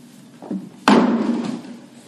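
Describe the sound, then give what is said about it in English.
A hammer strikes a nail driven through flesh, heard as a soft thump and then one loud, sharp impact whose heavy resonance lingers and slowly fades. “are destroyed by the first strike of the hammer on nail, the dull point ripping through flesh.”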